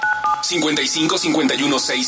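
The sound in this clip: Short touch-tone telephone dialing beeps on a radio call-in show, heard only in the first moments. Busy mixed sound with voices follows.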